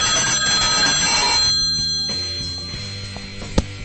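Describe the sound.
A telephone rings with an incoming call, a bright, jangling ring for about a second and a half that fades into a low hum. A sharp click comes near the end.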